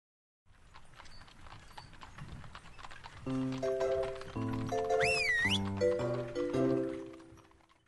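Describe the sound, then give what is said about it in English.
Horse hooves clip-clop for a horse-drawn wagon, a steady rhythmic clatter set against light instrumental music with sustained notes. “W is for wagon.”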